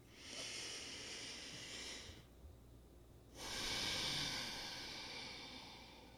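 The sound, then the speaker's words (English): A slow, deep breath taken during a guided relaxation exercise: a soft, airy breath sound lasting about two seconds, a short quiet pause, then a second, longer breath sound that fades gradually, with no talking. “take a deep breath. I'll do it with you.”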